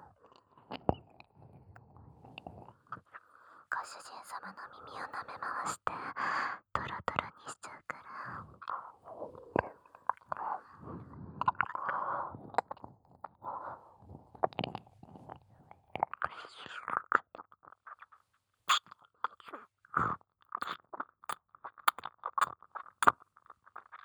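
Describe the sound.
Wet licking and mouth sounds in an ASMR recording: many soft, close clicks and smacks, with quiet whispering running throughout.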